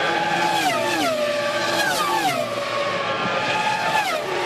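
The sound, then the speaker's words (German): Formula 1 racing cars scream past, a few high-pitched, harmonic engine wails each sliding downward in pitch as it goes by, loud and continuous with no break between passes. “so klingen sie, die Rennboliden der Formel 1”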